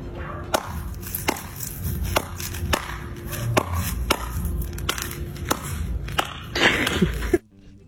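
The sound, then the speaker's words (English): A man slaps his own big bare belly with his shirt pulled up, making many sharp, fleshy smacks in a fairly steady rhythm that continues for several seconds before stopping abruptly. “he's got his shirt up and he's just slapping his own big belly like that”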